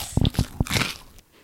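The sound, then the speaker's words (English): ASMR mouth sounds: three sharp, crisp bites followed by a burst of crunchy chewing that fades away, with no talking. “That was some ASMR for you guys. I'm going to put that at the end of the episode. The mouth sounds.”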